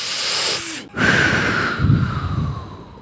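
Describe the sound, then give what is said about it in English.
A deep breath drawn in with loud, hissing air noise, heard as two long breathy stretches split by a brief silent break, the second one ending in rougher, snorting puffs. “but now let's take a deep breath, okay?”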